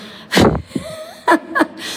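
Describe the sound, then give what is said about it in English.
Out-of-breath panting after running up stairs to a train platform, alone in a small station waiting room: a few loud, rough, breathy gasps with short quiet gaps between them. “I'm a bit out of breath because I just ran up the stairs to get to the platform.”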